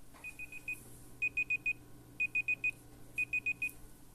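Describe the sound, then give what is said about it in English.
An online timer alarm going off, sounding rapid high-pitched electronic beeps in repeated groups of four, each group separated by a short pause. The first group is fainter than the rest. “That's the alarm, my online timer just going off to say that's the hour.”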